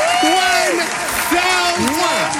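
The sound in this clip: Applause for a $1,000 donor, a steady wash of clapping that runs under talking voices for the whole clip.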